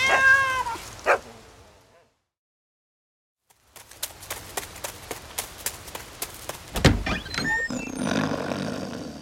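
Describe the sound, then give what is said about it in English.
A cat meows in a short harmonic cry. Silence follows, then a run of many sharp clicks and a further strained meow-like call, with rough noise trailing at the end. “Oh no! Help! My cat!”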